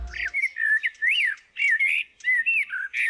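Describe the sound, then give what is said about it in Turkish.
A common blackbird sings a series of clear, fluting whistled phrases separated by brief pauses. The song is loud and even, with no other sounds. “Dinlediğiniz Kara Tavuğun Sesi.”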